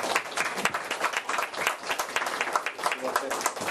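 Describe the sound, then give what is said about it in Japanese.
An audience applauds at the close of a lecture's question session, a fairly faint but steady run of many quick, overlapping claps that lasts the whole stretch. “拍手。”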